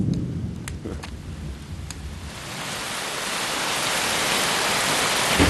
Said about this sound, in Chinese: 怎么回事？这么大的雷啊，吓我一跳。要下雨了。